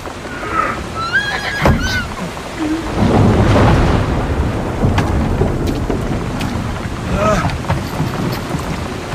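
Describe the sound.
A horse hitched to a wagon whinnies in a few high, wavering calls near the start and again later, over dense rushing, rumbling noise.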